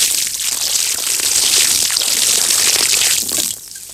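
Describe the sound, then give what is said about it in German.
Liquid pouring as drinks are tipped together and used to water flowers: a steady, loud splashing gush that eases slightly near the end, with no talk. “Als er weg ist, kippt sie alle Getränke zusammen und gießt damit die Blumen.”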